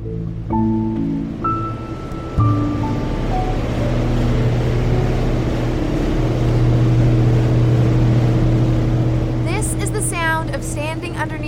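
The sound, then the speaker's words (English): Deep, steady mechanical hum from a hydroelectric turbine inside the Centrale Robert-Bourassa powerhouse, a huge Hydro-Québec dam complex in northern Quebec with 22 turbines across two powerhouses; a constant low drone with tonal layers persists, and a voice enters near the end. “turbine inside the Centrale Robert Bourassa, a massive dam complex that is way up in the middle of Quebec. This facility is one of the biggest in the world. Together, its two powerhouses have 22 of these turbines”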